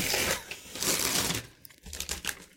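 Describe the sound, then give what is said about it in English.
Star Wars-themed wrapping paper is torn open from a gift box. Loud, dense crinkling and ripping runs continuously at first, then breaks into shorter, choppier rustles. “It's the same Star Wars wrapping paper, so yes. I don't have to describe it for the audio listeners. I'm just going to open it.”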